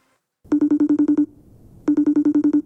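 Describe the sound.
An unanswered telephone rings in two bursts of rapid, buzzy pulses at a steady mid pitch, separated by a short gap.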